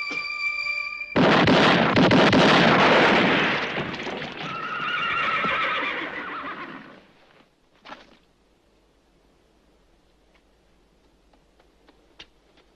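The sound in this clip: A mule gives a loud, drawn-out bray and whinny lasting several seconds before fading away. A single sharp bang follows, then a few faint ticks.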